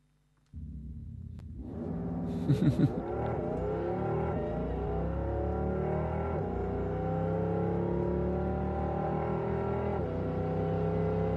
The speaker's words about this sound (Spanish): Y Porsche lo que acaba de presentar es algo artificial, que es simular 8 marchas en el Porsche Taycan. O sea, solo el ruido. Solo el ruido, si quieren lo escuchamos ahora.